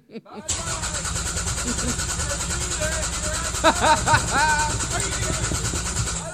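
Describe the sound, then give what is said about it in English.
A human voice imitates a car engine cranking and failing to start, making a sustained sputtering, rumbling drone for several seconds with a few louder bursts near the middle. “The car is not starting. That car is not working.”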